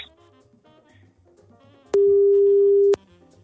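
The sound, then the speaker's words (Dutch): A telephone ringing tone while a call is placed: one steady, mid-pitched, loud tone lasting about a second over faint background sound. “We gaan eens bellen, we gaan eens kijken of we Frans...”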